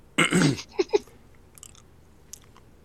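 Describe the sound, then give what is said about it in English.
Someone chews a dark jelly bean, producing a few brief, soft, moist mouth and chewing sounds after an opening burst of louder noise, with faint clicks trailing off. “We're chewing.”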